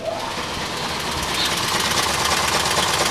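Steady mechanical whirring and rattling of a running cipher machine designed by Poznań mathematicians, a dense, continuous clatter that holds an even loudness throughout.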